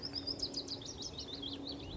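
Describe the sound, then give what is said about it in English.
A willow warbler sings in a willow, a quick run of thin, high, sweet notes that waver up and down in a continuous phrase. It sounds over a faint low hum and quiet background. “Sort of dripping. I think of it as like dripping mercury. All right. I don't know if that's a good thing. It's a willow warbler.”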